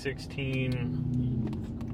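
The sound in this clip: A truck driving, heard from inside the cab on the way to a whitetail hunt: a steady low engine and road rumble runs under continuous talk.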